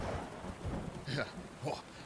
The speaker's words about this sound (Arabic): المطر شديد هذه الليلة.